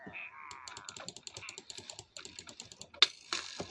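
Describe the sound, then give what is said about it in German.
Computer keyboard keys pressed rapidly while playing a video game: many quiet, crisp clicks in an uneven stream, with one sharper louder tap near the end. “was drücke ich immer noch auf die Taste?”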